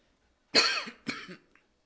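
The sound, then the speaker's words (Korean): A person coughs twice, two harsh bursts close together, the first louder than the second, with no talk around them. “아, 기침이 나와서.”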